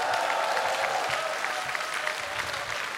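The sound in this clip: Audience applause at a live concert for the technical crew: steady, dense clapping throughout, moderately faint and easing slightly at the end.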